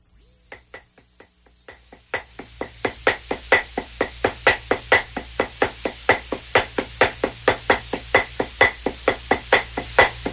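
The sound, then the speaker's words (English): Dadeumi, Korean rhythmic pounding of cloth with wooden sticks: a few sparse taps open, then a fast, steady run of many sharp wooden knocks drives on in an even rhythm, alone and fairly loud. “I think our producer prepared some dadeumi music. Do we actually have dadeumi sound back there? Okay, do you want to cue it up a little bit?”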